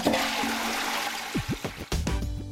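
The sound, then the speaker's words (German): A toilet flushes with a strong, continuous rush of water, then ends in a few gurgling, bubbling sweeps as the bowl drains. “wenigstens spülen. Ja, ist ja gut.”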